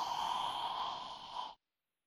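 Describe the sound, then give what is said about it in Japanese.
A single slow, deep inhale lasting about a second and a half, taken during a guided deep-breathing exercise. It is a soft, steady airy rush that stops abruptly. “じゃあ、もっと、ゆっくり、深呼吸をしてみよう。 吸って、”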